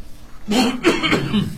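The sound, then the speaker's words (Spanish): Coughing breaks into a news reading as a few rough, voiced bursts in one short fit, moderately loud and alone without words. “Ay, me agarró tos.”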